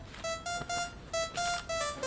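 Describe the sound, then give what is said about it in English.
A mobile phone rings with a bright electronic ringtone of rapid, high-pitched beeping bursts, repeating in a quick pulsing pattern with no voices. “Oh, must get this, sorry. You want to talk to me? Turn off your phone.”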